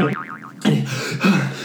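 A Scooby-Doo style cartoon collision effect, as two characters run into each other: a wobbling boing tone comes first, then two heavier thudding hits.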